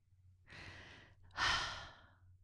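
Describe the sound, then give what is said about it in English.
A person takes a deep breath in and lets it out, a soft airy inhale, a short pause, then a louder, longer exhale that fades away. “Breathe and release.”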